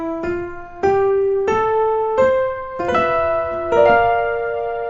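Piano chords of a B flat major chord played with the right hand, struck about six times in an even rhythm, each bright, full chord ringing briefly before the next. No voices.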